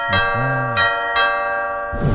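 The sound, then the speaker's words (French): A doorbell chime rings at the entrance of someone's home in the evening: a few bright, bell-like tones that ring on and overlap, then end in a brief burst of noise. “Je vais donc aller sonner”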